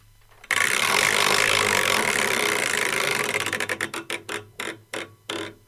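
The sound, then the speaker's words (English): A prize wheel spins, its clicks blurring into a loud, continuous rattle. The rattle then breaks into distinct ticks that come further and further apart as the wheel slows toward a stop. “Let's go over to the wheel and spin it.”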